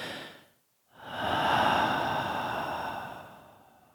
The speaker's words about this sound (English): Obviously, to exhale, I need to inhale, but what I'm focusing on is the thought of exhale, that breathing out